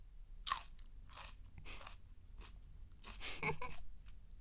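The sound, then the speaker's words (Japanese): Crunchy biting and chewing of a mouthful of food: several crisp, separate crunches spaced irregularly, with a cluster of louder ones near the end and no voices. “今度はしっかり噛み締めながらもう一口。はい、あーん。”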